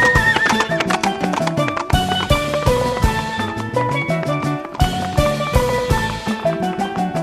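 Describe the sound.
A horse neighs and its hooves clip-clop in a children's tale about a primitive man chasing a horse across hills and valleys. The sound runs loud and continuous, with whinnies over steady hoofbeats and no talking.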